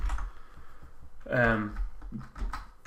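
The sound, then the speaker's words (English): Typing on a computer keyboard: many quick, light clicks in an uneven patter, with a brief stretch of talk over the keystrokes. “listen, I'll just quickly type in”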